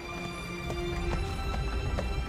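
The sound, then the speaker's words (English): Hoofbeats of a dark horse pulling a two-wheeled enclosed cart along a narrow dirt path, a few soft, evenly spaced clops set under a sustained musical drone. “A dark horse pulls a two-wheeled enclosed cart on a narrow dirt path.”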